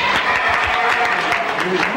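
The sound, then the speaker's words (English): An audience applauds with dense, steady clapping that holds at an even level for about two seconds. “Now, why are you applauding a Pullman car?”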